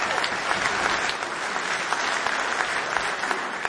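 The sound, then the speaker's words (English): Audience applause at a live band concert forms a dense, steady wash of many hands clapping that holds evenly from start to end without a break. “give yourselves a hand. Y'all sound awesome.”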